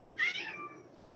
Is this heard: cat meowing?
yes

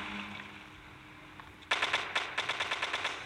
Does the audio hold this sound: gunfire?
yes

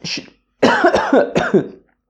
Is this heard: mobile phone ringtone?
no

